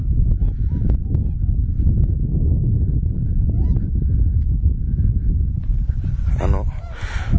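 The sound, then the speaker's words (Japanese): Swans honking on the Niigata lowland plain, repeated calls that stay faint under heavy low rumbling noise, with a few clearer honks near the end. “新潟県平野部から白鳥の声を久しぶりに録音しております。”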